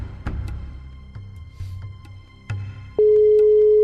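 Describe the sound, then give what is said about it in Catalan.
A telephone call tone on a call that goes unanswered: scattered clicks and low line noise, then a single steady, moderately pitched tone begins near the end and holds unbroken to the close. “A sobre no ens agafa la trucada.”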